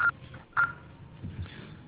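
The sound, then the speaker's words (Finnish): Two short, mid-pitched voicemail beep tones on a phone line, fairly faint and spaced about half a second apart, followed by low line noise and soft rustling. “Jätä viestisi äänimerkin jälkeen. Lopuksi paina ruutu tai sulje puhelin.”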